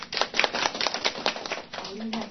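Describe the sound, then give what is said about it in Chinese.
Clapping from a class of students, a dense run of quick overlapping claps, with a voice talking over it. “好，对，非常好，大家鼓掌一下吧。”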